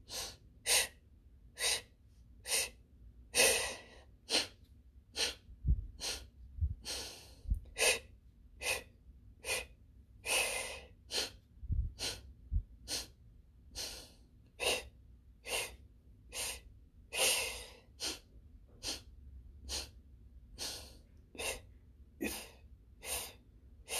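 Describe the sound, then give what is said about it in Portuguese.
Paced breathing, drawing air in through the mouth and letting it out through the nose, repeats as many steady, evenly spaced breaths. Each one is a soft airy rush that swells and fades, with brief quiet gaps between. “pode inverter inspira pela boca e solta pelo nariz, também em quatro vezes.”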